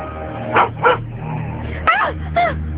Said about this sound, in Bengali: আরে আরে, কুকুর তো, একটা কুকুর দেখে ভয় না পাচ্ছিস?